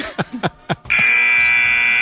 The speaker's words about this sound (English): An early buzzer